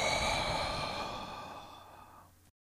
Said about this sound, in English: Take a deep breath in and let it all out.